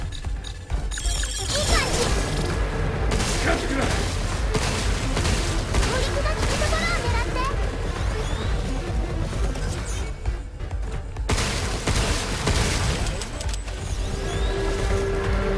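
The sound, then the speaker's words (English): A big gun fires in a video game, heavy gunfire and crashing blasts packed into one loud, dense, unbroken barrage. “Using my big gun on that because I need my big gun.”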